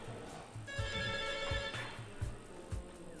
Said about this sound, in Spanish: Tenemos gente en el teléfono, caramba. Llora el teléfono.